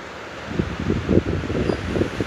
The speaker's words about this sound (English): I don't know if you can hear the wind, it's nice.